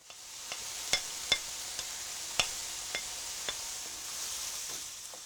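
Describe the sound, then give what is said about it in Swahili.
Onions and bell peppers sizzle in a pan after chicken has been fried in it, a steady hiss broken by many sharp crackles and pops. “Kaanga vitunguu na pilipili hoho hadi viwe angavu.”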